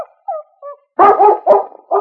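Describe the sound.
A dog whimpers softly a few times, then breaks into a quick burst of a few loud, sharp barks, all without any voices.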